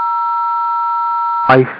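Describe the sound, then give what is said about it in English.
A phone keypad tone holds steady for about a second and a half, a bright electronic chord, then a brief burst of voice cuts it off. “Somebody's pressing buttons on a phone or something. It's a little annoying.”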